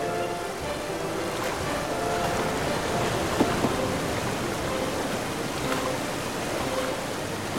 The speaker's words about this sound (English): We're coming to the first rapid.